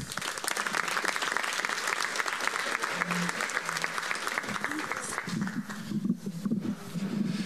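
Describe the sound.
Steady audience applause welcomes a speaker to the stage at a church regional gathering in Arizona. A thick, even rush of clapping runs throughout, with voices faintly audible beneath it.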